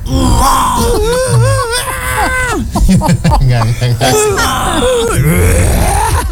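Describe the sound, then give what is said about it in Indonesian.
A voice imitates a baby crying with a growling tone. Loud, wavering wails and groans run almost continuously, in several bursts that rise and fall in pitch. “Gimana sih kalau nangis ngegrow gimana sih lu?”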